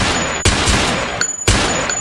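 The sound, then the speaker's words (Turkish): Gunfire from a pump-action shotgun and pistols shot into the air at a wedding celebration in Ankara. A few sharp, loud reports crack through a dense, noisy background. “Seriye bağladılar, havaya kurşun yağdırdılar.”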